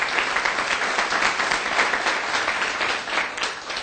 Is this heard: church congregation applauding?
yes